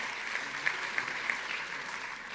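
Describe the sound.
Scattered audience clapping for a speaker, a moderate, steady patter with a few sharper individual claps standing out, continuing evenly for a couple of seconds with no voices over it.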